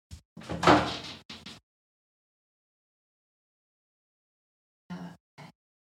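A door is opened for a visitor: a clattering burst of handling and movement, then a long silence and two short, softer knocks or bumps.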